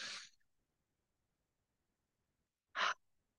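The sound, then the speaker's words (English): Breathing in through the nose and out through the mouth, heard as two short airy bursts of breath separated by nearly three seconds of silence. “a halo active breath, which is breathing in through the nose and breathing out through the mouth. So, it may sound something like,”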